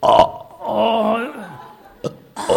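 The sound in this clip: A voice imitates a loud, disgusting burp, like someone waking at night after overeating: a drawn-out, croaky, voiced belch, with a couple of short grunting sounds after it.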